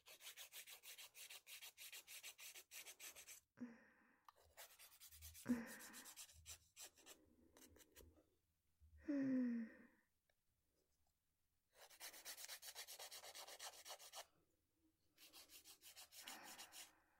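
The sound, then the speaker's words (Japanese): Fingernails being filed with a nail file right after trimming, several runs of rapid, scratchy rasping strokes broken by brief pauses and a few soft knocks, faint and close. “それじゃあ、ヤスリがけしちゃいますね。ヤスリがけしないと、爪割れの原因になっちゃうんですよ。”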